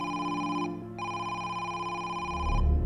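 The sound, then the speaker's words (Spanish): A telephone rings with a steady, bright, buzzing tone that breaks off briefly and then resumes before stopping, with a low rumble at the end. “Al cabo de un rato, suena el teléfono.”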